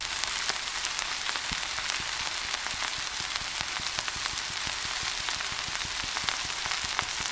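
Bacon frying and sizzling in a pan gives a steady, fairly faint hiss, dotted with many small crackling pops at an irregular pace, with no talking.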